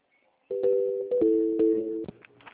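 Telephone line tones play while a call is being transferred. A steady electronic dual tone steps down in pitch a couple of times, ending in a few clicks and faint line noise.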